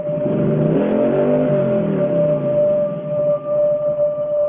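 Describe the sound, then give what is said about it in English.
A motorcycle engine revs as the throttle on the hand grips is turned, heard in slow motion as a low, stretched drone that swells and sags in pitch over a steady high hum, with no voices. “In slow motion, Evil turns the throttle on the hand grips.”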